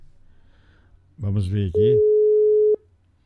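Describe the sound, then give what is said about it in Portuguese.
A telephone tone sounds after a dropped call. A single steady, mid-pitched beep lasts about a second, starting right after a brief spoken voice. “Caiu a ligação. Deixa eu pegar aqui. Caiu a ligação aqui.”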